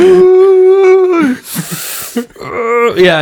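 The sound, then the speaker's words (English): A voice imitates a gang member snorting copious amounts of cocaine. A held, groaning vocal tone gives way to a loud, rushing, hissy inhale, and strained vocal noises follow. “There's a brilliant scene where the lead gang member inhales copious amounts of cocaine and just go...”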